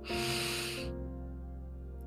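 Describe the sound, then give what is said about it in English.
A single deep breath in, a soft airy inhale lasting under a second during a guided breathing exercise, over a low sustained musical drone that continues after it. “We're going to start with 3 deep breaths to encourage the affirmations. Take a deep breath in”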